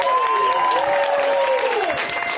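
Steady audience applause for a comedian at a comedy show, a dense wash of clapping that holds at an even, loud level from start to finish.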